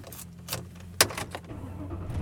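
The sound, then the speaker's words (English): A car being driven, heard as a steady low engine and road rumble with a few short clicks and rattles on top; no talking. “And I am driving home.”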